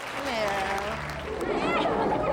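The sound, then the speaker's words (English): Audience applause welcoming a Yiddish theater performer to the stage, a steady wash of clapping that runs under a speaking voice. “Let's have a wonderful reception for him.”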